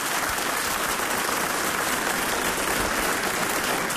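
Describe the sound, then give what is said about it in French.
Audience applause for two invited twin guests: a dense, even wash of clapping that stays loud and steady for about four seconds. “Et on peut les applaudir.”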